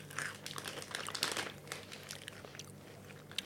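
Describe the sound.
Crinkling of a snack packet mixes with crisp crunching as sweet Indonesian peanut snacks are chewed, a continuous close rustle broken by sharp bites.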